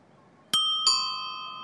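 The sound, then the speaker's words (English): A doorbell rings with two bright chime strikes in quick succession, a ding-dong whose clear tones hang on and slowly decay, with no talk. “Please, could you ring the bell once more? I will.”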